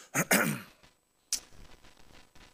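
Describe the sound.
A person clears their throat with two rough, quick bursts, followed after a short silence by a brief sharper sound and faint low noise.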